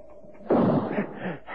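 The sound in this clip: A single rifle shot fired at a man, a sudden loud blast that quickly decays into a rumbling tail.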